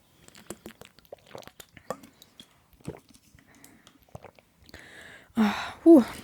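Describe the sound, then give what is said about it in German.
A person takes a sip of a drink: quiet, scattered talk gives way near the end to a short, wet slurp and swallow that stands out louder than the speech. “Ich muss mal einen Schluck trinken. Wir alle natürlich.”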